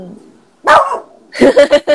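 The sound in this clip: A dog barks: one louder burst early on, then a quick run of four sharp barks in close rhythm near the end.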